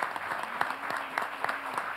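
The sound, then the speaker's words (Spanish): Applause from a group welcoming the start of the Olympic Games: dense, steady clapping with many overlapping claps at an even loudness throughout. “Vamos a darle un aplauso de bienvenida a los Juegos Olímpicos.”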